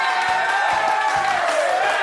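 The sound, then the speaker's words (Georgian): Audience applause for a singer: a dense, steady wash of clapping that stays constant for about two seconds. “აპლოდისმენტები მარიამს.”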